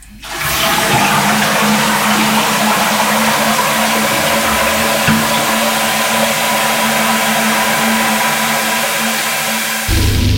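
A toilet flushes with a loud, steady rush of water that holds for about nine seconds and then cuts off abruptly. No one speaks.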